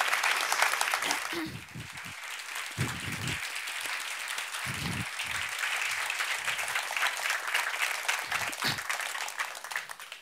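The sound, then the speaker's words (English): An audience at a book event applauds in long, sustained clapping that fades at the end, while people talk at times during it. “Men nu en stor applåd för Jenny Arpenbäck och Harald Hultqvist.”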